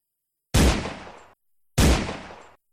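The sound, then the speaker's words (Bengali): Two loud gunshots from a man's gun firing in a forest, each a sharp, booming blast with a short decaying tail, spaced a little over a second apart, with no voices. “মানুষটির বন্দুক আবার গর্জে উঠল।”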